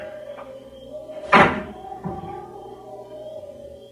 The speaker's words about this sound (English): They sat there in the car perhaps 10 minutes before the car door slammed shut.